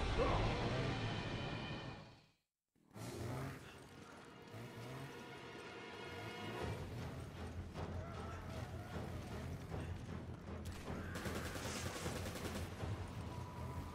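Gunfire in a video game: a dense, sustained barrage of shots broken by a brief drop to silence near the start, then continuing loud and steady, mixed with other game sounds.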